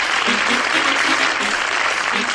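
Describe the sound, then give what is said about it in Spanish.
Dense audience clapping salutes a band from San Cristóbal de las Casas, brisk and steady from start to finish with no gaps across the short span. “Ahí está, mira, doctor, dale palmas.”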